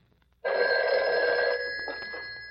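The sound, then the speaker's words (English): A telephone bell rings in a bookmaking pool room. One sustained metallic ring starts abruptly after a brief quiet moment and eases slightly toward the end. “The sound you hear now has never been heard before on the air. This is a bookie joint, a pool room, they call it.”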